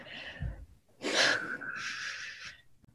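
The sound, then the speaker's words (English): A deep breath drawn in during an eyes-closed group exercise: a faint short breath, then a loud airy rush of inhaling that lasts about a second and a half and trails off. “Take a deep breath.”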